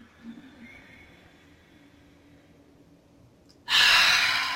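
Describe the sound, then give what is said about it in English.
A forceful breath pushed out through the mouth during a Kung Fu breathing exercise, a loud rushing exhale after a long, quiet stretch. “Inhale through your nose. And exhale through your mouth.”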